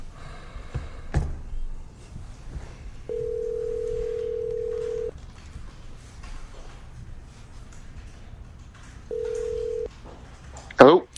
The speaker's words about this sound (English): Dial Mike up, see if he's around.